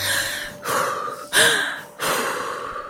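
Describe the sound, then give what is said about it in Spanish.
Deep breathing: four loud, airy breaths in and out in steady succession, with no talking. “respira hondo, cálmate, ve despacio. Tú frena un poco y respira.”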